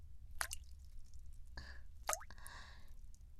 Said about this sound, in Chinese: 滴答。滴答，每听到一声滴水声